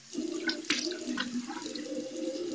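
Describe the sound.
Tap water runs while someone washes their face at a sink, a steady, fairly soft rush with a few brief splashes rising above it and no talking.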